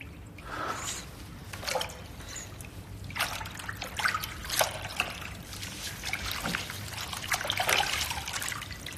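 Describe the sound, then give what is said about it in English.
Water trickles and drips from a balled-up gray t-shirt dipped into a pool, with soft irregular splashes and a gentle running dribble that stays quiet. “He balls up the shirt and dips it into the pool.”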